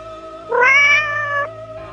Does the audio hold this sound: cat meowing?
yes